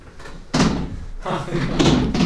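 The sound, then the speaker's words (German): A door being opened for someone arriving out of a snowstorm, marked by a sudden thud about half a second in. Continuing movement noise and voices follow. “kannst du mal eben die Tür aufmachen?”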